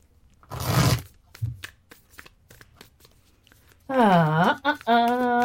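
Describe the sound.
A Borderless RWS tarot deck being shuffled: one dense, crackling riffle burst, then a run of soft taps and clicks as the cards settle, before a voice starts talking.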